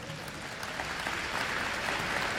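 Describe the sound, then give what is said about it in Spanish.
Congregation applause during a church sermon, a dense, steady wash of many hands clapping that swells slightly louder toward the end, with no distinct voices. “Un aplauso al Espíritu Santo.”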